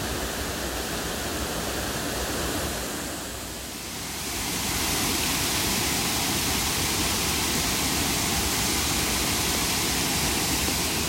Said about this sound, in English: I think it's just lovely to revel in the power of the water that's crashing down around me, in comparison to the calm, babbling brook.